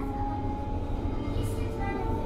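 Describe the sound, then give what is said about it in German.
Rumbling of an S-Bahn commuter train at a Berlin station, a steady low drone with a sustained tonal hum around the wheels and motors, continuous and fairly loud throughout, with a faint voice mixed in. “Nächste Station, Lichterfelde West. Die S-Bahn-Station Lichterfelde West in Berlin-Zehlendorf.”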